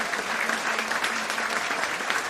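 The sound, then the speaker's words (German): Warm audience applause at a political party gathering, honoring a former parliamentary group leader; steady, even clapping from a sizable crowd, sustained and fairly soft throughout with no voices over it. “Einen herzlichen Applaus auch für den Kaspar Bader, der heute da ist.”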